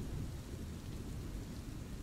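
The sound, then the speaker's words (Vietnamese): Heavy rain pouring down over a village, a dense, steady hiss and roar that never lets up, with no voices over it. “Thế nhưng chỉ riêng làng Thống Nhất này từ bữa tới giờ trời cứ mưa như trút nước.”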